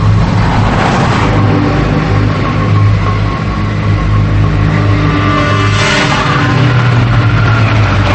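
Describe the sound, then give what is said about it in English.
A car speeding down a highway gives a steady, loud roar of engine and road noise. It holds at an even level throughout with little change in pitch. “He speeds down the highway.”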